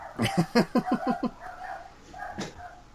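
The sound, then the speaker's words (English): A dog barks in a rapid burst of sharp, evenly spaced yaps, then goes quieter. A brief voice follows. “Oh, the doggo's going off.”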